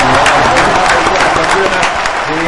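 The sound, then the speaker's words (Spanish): Audience applause closes a segment of a sports program. Steady, dense clapping holds a fairly constant loudness while a voice talks over it. “un aplauso para vos y para toda la gente de esta”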